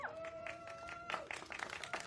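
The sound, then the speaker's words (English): Very faint audience applause at a civic speech in San Francisco praising a transportation leader. Many scattered claps build and thicken toward the end, and a brief tonal sound is heard at the start. “I kind of buried that applause line. I'm glad that people decided to take advantage of it.”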